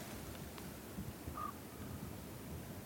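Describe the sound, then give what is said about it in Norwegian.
A raven calls outdoors on ice, giving a faint, brief croak over a steady wash of wind noise. “Nå hører vi ravnen som der bak oss der. Det stille og fredelig. Der var ravnen.”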